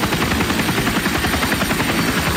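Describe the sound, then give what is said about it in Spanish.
A helicopter flying over a city centre gives off a loud, steady rotor roar with a fast rhythmic chop that never lets up. “Trépate el helicóptero, jálate.”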